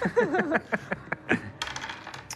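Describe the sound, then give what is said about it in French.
Two-sided dice are rolled in a tabletop game, giving a brief scattered clatter of small, hard clicks. Voices are heard just before it. “Lance les dés à deux faces.”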